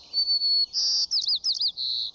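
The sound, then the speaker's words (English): White-crowned sparrow song: a clear, high whistled note followed by a quick series of bright chirped and buzzy phrases, loud and alone. “This is the song of a white-crowned sparrow. Some describe it as, "See me, pretty, pretty me."”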